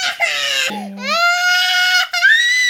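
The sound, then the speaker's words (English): A toddler crying in a full tantrum: loud, sustained, high-pitched wailing sobs that run almost continuously, with only brief catches for breath between cries. “here we go, full on tantrum alert.”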